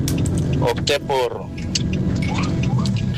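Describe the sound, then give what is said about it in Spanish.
A car is driven home from work, with its engine and road noise humming steadily under a person talking. “Es que voy conduciendo hacia la casa.”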